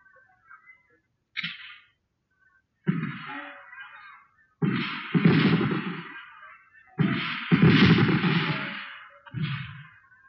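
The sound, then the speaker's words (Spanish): A firing squad of 750 soldiers in three rows fires rifle volleys: several heavy, rumbling bursts of gunfire separated by short pauses. “El regimiento de 750 soldados se colocó en tres filas y llegó la orden de disparar.”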